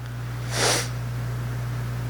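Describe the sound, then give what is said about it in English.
One brief, breathy nasal sniff from someone with the sniffles rises and fades quickly out of a quiet background, over a steady low electrical hum. “I got the sniffles.”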